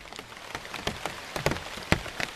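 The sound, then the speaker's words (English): Rain splattering on a giant sabo tree and the plants growing beneath it in the Ecuadorian Amazon: a soft, steady patter broken by many sharper, louder drop hits, with no voices. “This is the sound of rain splattering on a giant sabo tree and the plants growing underneath it in the Ecuadorian Amazon.”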